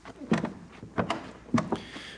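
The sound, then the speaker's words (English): Old wooden stair boards creak under boots as someone climbs slowly at dawn in an old house, a few separate creaks and groans spaced through the moment, with no voices. “the only sound is the creak of its elderly boards under the boots of the house's only living occupant”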